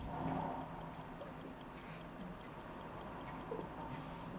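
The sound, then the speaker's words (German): A mechanical watch ticks as its balance wheel and escapement drive the gear train: steady, rapid, even ticks at about five per second, crisp and high over faint background noise. “und schon läuft die Uhr. Durch die Schwingung der Unruhspirale wird der Anker angetrieben, der hin und her schaltet und das Räderwerk langsam ablaufen lässt.”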